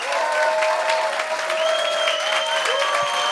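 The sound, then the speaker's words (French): Applause from a comedy club audience in Montreal: a dense, steady clatter of many hands clapping that fills the whole clip at an even loudness, with a few faint tones running underneath. “T'applaudis encore plus long.”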